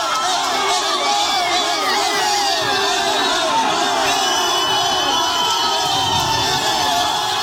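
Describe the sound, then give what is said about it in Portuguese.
Brazilian fans celebrate Neymar's call-up to the national squad, a loud and continuous crowd roar full of cheering, whoops, shouting and overlapping chatter that never lets up. “Inclusive, pouquinho antes, já tem o início de celebração com torcedores. A gente vai subir até o som, porque acho que é autoexplicativo.”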